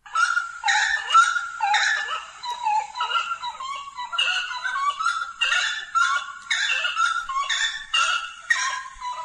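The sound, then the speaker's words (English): Bird calls: loud, harsh, honking notes repeated in quick bursts, many calls overlapping and tumbling over one another without pause, heard alone with no voices. “Some kind of bird. Yes, that's correct.”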